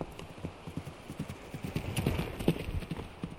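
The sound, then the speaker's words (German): A pony's hooves clip-clop in a steady, continuous rhythm of many light hoofbeats as a girl rides away. “Stellt euch vor, sie setzte sich auf das Pony und ritt davon.”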